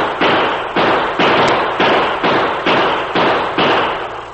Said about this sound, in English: The masked man was only a few feet away, firing at something or someone below him.